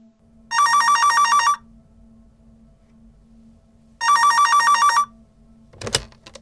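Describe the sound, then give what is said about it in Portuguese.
Telephone ringing at the start of a recorded phone call: two long bursts of bright, trilling bell separated by a few seconds of quiet, then a brief sharp clatter at the end. “A seguir a ligação gravada feita para esse número.”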